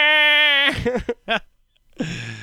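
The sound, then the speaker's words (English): A voice imitates a forklift crying like a toddler after being bumped: a high, sustained wailing whine breaks into a couple of choked, sobbing bursts, goes quiet, then ends in a lower breathy sob. “Forklifts are like really strong toddlers. Like you're just like, you can get them to do stuff, but if you hurt them, they will just sit there and cry until their dad comes. You bump into anything, it's like,”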